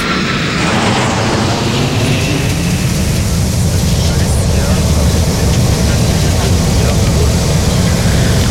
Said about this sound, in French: Mayday Airlines, le cockpit.